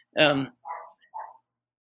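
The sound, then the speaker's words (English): A dog barks a few times indoors in short bursts. The first bark is the loudest and longest, and two shorter, fainter barks follow after brief pauses. “sorry if you hear the dog barking. I've got dog.”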